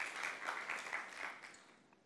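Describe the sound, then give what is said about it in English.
Applause from a church audience during a service: a steady wash of clapping that holds for over a second, then thins and fades toward the end, faint overall. “Why don't we just give her a round of applause there and just thank her.”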